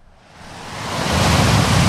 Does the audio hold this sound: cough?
no